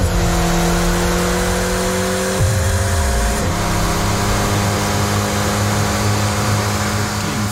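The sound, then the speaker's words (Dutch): An Alpine A110R engine revs hard as its rear wheel spins on a dyno rolling road. The loud, steady mechanical drone drops sharply in pitch partway through, then keeps roaring evenly. “Daarin zie je een achterwiel op een rolband en vervolgens zie je dashboard de snelheidsmeter oplopen. Dit geluid hoort erbij.”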